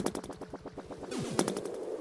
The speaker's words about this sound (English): Also, I can't seem to fire. Like, just listen to how slowly I'm firing.